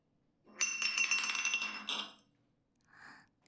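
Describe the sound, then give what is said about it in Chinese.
A glass liquor bottle spins on a table during a drinking game, giving a rattling, clinking whir that lasts about a second and a half before stopping, followed by a short, softer sound. “谁来转酒瓶子？”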